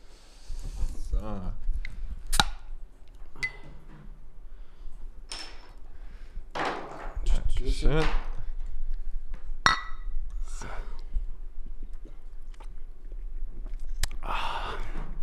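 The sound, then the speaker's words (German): Glass clinks and sharp clicks as a beer is opened, scattered bright hits under people talking. “macht euch bitte einfach ein Bier auf jetzt. Es ist einfach wichtig für alle, für die Allgemeinheit. Einmal bitte. So.”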